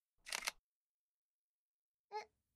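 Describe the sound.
A camera shutter fires as someone poses for a photo: a faint, crisp double-click burst, then a pause of over a second and one more brief, quiet click.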